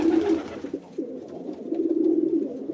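Grey pigeons coo steadily in a low, rolling murmur at a bird feeder, the soft throaty calls overlapping and continuing throughout at moderate volume.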